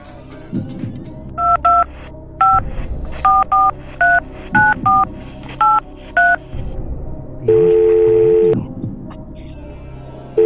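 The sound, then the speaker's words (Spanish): Telephone keypad dialing tones as a phone call is placed: a quick run of short, crisp two-tone beeps at an irregular rhythm, then one longer steady tone, with people talking underneath throughout. “make the call”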